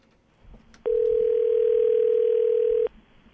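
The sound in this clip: A telephone dial tone sounds while a call is being placed: a steady, unbroken mid-pitched tone lasting about two seconds, starting and stopping abruptly against faint background noise.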